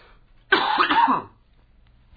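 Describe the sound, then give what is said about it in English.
A single throat clearing, one harsh, rasping burst lasting under a second, loud against near silence. “In the meantime, I will clear my throat”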